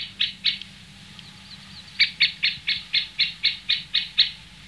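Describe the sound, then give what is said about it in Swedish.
A middle spotted woodpecker calls at its nesting site with high, sharp notes. Two calls come first, then a quick, evenly spaced run of about ten, fairly clear over a low steady hum. “vi hör i bakgrunden nu en mellanspett på sin häckplats.”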